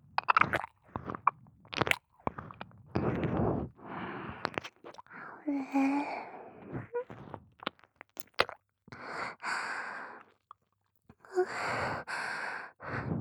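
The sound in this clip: A tongue licks an ear in close, wet, intermittent bursts of smacking and slurping, separated by short pauses, with soft breaths and sighs between the licks.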